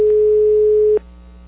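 A steady single-pitch telephone line tone after a dropped phone call, loud and unbroken for about a second before it cuts off and leaves only a faint low hum.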